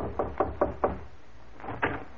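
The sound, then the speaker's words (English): Someone knocks at a door: a quick run of four firm raps, then a short pause and two softer knocks. “I'll see who's at the door, James.”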